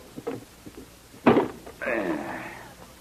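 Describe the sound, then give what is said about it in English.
A treasure chest is opened: a heavy wooden thunk, then a drawn-out creaking groan that fades slowly, with a few soft knocks and handling sounds before it. “What's supposed to be in this treasure chest? $25,000. Never mind the questions. Just open it.”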